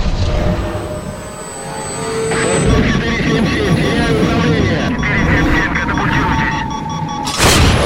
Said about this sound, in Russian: Из пробитого кольца вокруг корабля выбивается пламя. Артем снимает с Юли футболку. Так точно. Около корабля начинает падать истребитель.